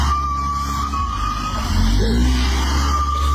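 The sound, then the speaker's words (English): A car engine revving hard as the driver tries to pull away with the handbrake still on. A loud, sustained strained whine sits over heavy low rumble, and the pitch wobbles briefly past the midpoint. “There's smoke everywhere. He's trying to get away, but the handbrake's still on. Handbrake on.”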